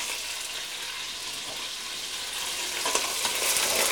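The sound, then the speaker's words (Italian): Meat browning slowly on all sides in a pan and then being salted gives off a steady, dense sizzle and crackle, constant throughout and growing a little louder toward the end, with no talking. “Una volta fatta con pazienza questa rosolatura da tutti i lati, con pazienza perché è anche l'unica cottura di questa carne, l'abbiamo rosolata, ora la saliamo”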